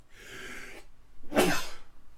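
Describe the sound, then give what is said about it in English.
A sneeze on a bitterly cold, windy outdoor day: a breathy intake, a brief pause, then a sharp, noisy burst that trails off, with no talking. “Oh, he's sneezing again.”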